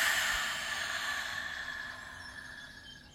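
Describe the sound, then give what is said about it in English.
A deep breath is drawn in through the nose and released, a soft, airy rush of breath that gradually tapers off, with no talking. “Let's take a nice deep breath through your nose and release it.”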